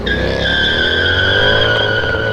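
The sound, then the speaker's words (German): Tires screech as a black Mercedes speeds off, a loud sustained squeal whose pitch sinks slightly, over a steady engine roar. “Ich glaub's nicht. Der ist jetzt mit einem Auto abgehauen. Ja, ein schwarzer Mercedes. Konnte ich gerade noch sehen.”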